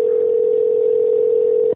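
A telephone dial tone hums steadily after the caller hangs up. It is one unbroken mid-pitched tone that holds at an even, fairly loud level on its own, then cuts off abruptly at the end.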